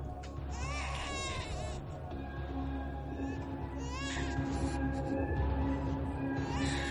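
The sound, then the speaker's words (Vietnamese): A small child cries on and on in wailing, wavering bursts that rise and fade over a few seconds, fairly faint against a dense, steady background noise. “Tiếng đứa trẻ con vẫn khóc ngặt nghẽo vang lên.”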